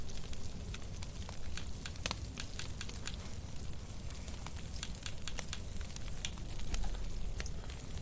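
Mushrooms frying over a fire in a video game make a steady, dense sizzling hiss, flecked with many small crackling pops throughout.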